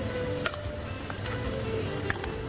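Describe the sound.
Tomato paste sizzling as it fries in a pan: a dense, steady crackling hiss that holds an even level throughout, with a few faint clicks and pops and no voices.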